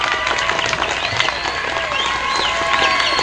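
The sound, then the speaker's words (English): Audience applause welcoming a junior high dance group from White Springs onto the stage for a waltz quadrille: a dense, steady wash of many hands clapping that holds evenly throughout. “Bring them on with a big hand, folks.”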